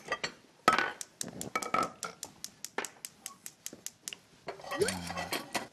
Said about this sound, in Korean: 감자를 이제 한번 볶아 볼게요. 볼까요? 네, 참기름 주시고요. 자, 이동해서 볶아 보겠습니다.